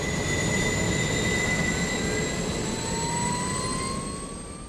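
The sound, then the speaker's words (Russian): A Shinkansen bullet train arriving at Tokyo Station gives off a loud, steady rushing roar with high whining tones that slowly glide in pitch. The roar eases off near the end. “Ого, а это что за синкансен? Прибывает поезд.”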